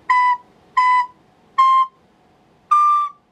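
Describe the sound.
A wind instrument with a back thumb hole, fingered with the middle finger on the second hole, plays four short, clear piping notes separated by brief silences. The first two notes match in pitch and the last sits slightly higher.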